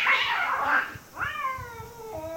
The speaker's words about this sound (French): Et alors que le cri de ce chat sauvage retentit à nouveau, plus proche encore,